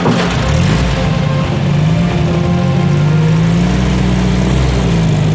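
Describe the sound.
A car engine runs as the car drives off, giving a steady, loud, low droning rumble with a faint tonal hum throughout and no clear surges.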